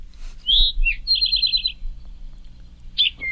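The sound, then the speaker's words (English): An eastern towhee, also called rufous-sided towhee, sings a clear, high phrase: a short sliding note, a lower note, then a rapid buzzy trill. A single bright note follows near the end over a faint low hum. “That's the eastern towhee, which I've also heard called the rufous-sided towhee.”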